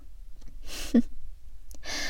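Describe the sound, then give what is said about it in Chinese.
Heavy open-mouthed panting breaths from one person, a few loud gasping inhales and exhales with a sharp catch near the middle, no speech. “这样大口大口的喘气，还真有意思呢。”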